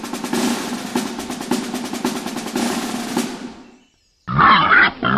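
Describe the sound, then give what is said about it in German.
Wild boar grunting in a fast, rough series of low pulses that fade out, then a short silence before a different, louder burst of sound. “Wildschwein.”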